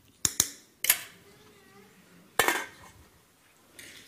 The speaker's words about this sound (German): So, zwischendrin einmal umrühren da.